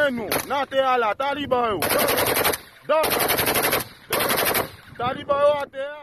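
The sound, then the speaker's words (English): Semi-automatic rifle fire shuts down an international airport in a capital city: three loud, sustained bursts of rapid shots, with shouting voices before the fire and after it. “they shut down the Toulouse-Louverture International Airport in the capital, Port-au-Prince, with this barrage of semi-automatic rifle fire”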